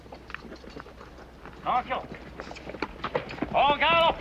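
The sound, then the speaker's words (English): Soldiers' horses galloping off, heard as a patter of quick hoofbeats that grows busier and louder toward the end. “On the all clear, the soldiers gallop off.”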